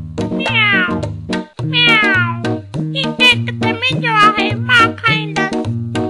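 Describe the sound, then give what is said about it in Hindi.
A cat meows repeatedly in loud, drawn-out cries whose pitch wavers and slides, forming an almost unbroken series with only brief pauses and no talk. “पर एतिरे में हिकु ॿी बिल्ली बि उते अची पहुती। म्याऊं म्याऊं करे चवण लॻी,”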